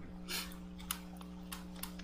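Computer mouse clicks: a few small, sharp ticks spread across two seconds, faint against a steady electrical hum.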